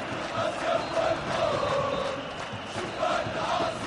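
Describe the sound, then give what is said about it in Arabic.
Soustara supporters at an Algerian football match cheer and chant in the stadium, a continuous roar of massed voices with swelling sung tones and brief surges in loudness. “تشجيع كبير من أنصار السوسترة.”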